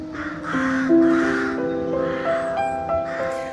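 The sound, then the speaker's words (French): Many rooks caw in the trees, harsh overlapping calls repeating throughout at a fairly even loudness. “The sound that we can hear now, the rooks and the trees. Vous entendez donc tout ce bruit des corneilles, je pense, des rooks en anglais.”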